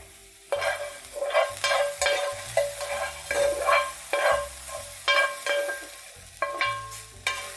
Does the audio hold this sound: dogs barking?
no